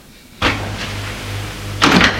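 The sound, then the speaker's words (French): Knocking on a door sounds as a few sharp raps in two short clusters, a moment apart, over a steady low hum. “On frappe à la porte.”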